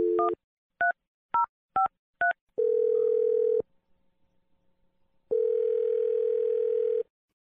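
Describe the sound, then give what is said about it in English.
Telephone dial tone and touch-tone dialing before a call: five short two-tone DTMF beeps in quick succession, then a steady dial tone, a brief gap of near silence, and the steady tone again, with no talking. “Here we go. Dial in number.”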